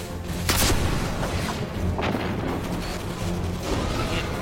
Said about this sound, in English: Of course, using a machine gun.